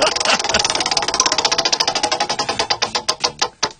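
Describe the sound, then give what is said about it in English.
A prize wheel spins with rapid, sharp ticking from its pointer. The clicks start fast and dense, then gradually slow and spread apart until the last few land singly as the wheel stops. “Give the wheel a bit of a spin. Wheel of topics.”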